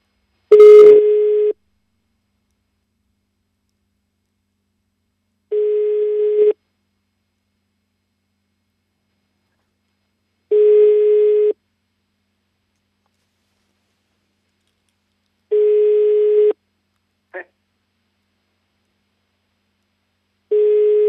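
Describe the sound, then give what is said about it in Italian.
Unanswered telephone ringing: five steady one-second ring tones spaced about five seconds apart with silence between them. The last tone is cut short, and a single brief blip falls between the fourth and fifth. “Squilla il telefono.”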